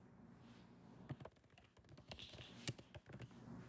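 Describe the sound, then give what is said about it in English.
Typing on a computer keyboard: faint bursts of quick key taps, irregular and clustered, with brief pauses between runs. “I'm literally looking up. I'll tell you after I type it.”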